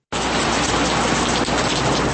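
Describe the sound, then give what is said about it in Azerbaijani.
Autumn rain falling, the first of the season in Baku, heard as a loud, steady, dense hiss that begins abruptly after a moment of silence and holds constant throughout. “Bugün Bakıya bir neçə aydan bəri ilk payız yağışı yağıb.”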